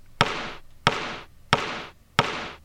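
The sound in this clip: A basketball bounces as the chosen token sound in a video board game: four crisp, evenly spaced thumps, each with a short hollow ring that fades before the next bounce.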